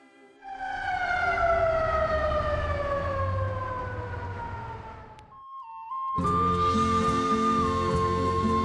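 Ambulance siren during an obstetric emergency: a loud, long wail that slides steadily downward in pitch, breaks off briefly, then resumes as a steadier, piercing multi-tone blare.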